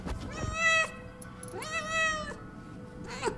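A pet cat meows three times: two drawn-out, tonal calls, then a short, clipped final one. The meows are moderately loud and clear, with no voices over them.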